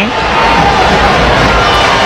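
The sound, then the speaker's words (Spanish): A stadium crowd at a football match applauds and cheers footballer Alexis Vega with a loud, continuous roar of clapping and voices that stays constant throughout. “Ahí va Vega y ver el aplauso de la gente. Están entregadísimos a su ídolo. Lo aman.”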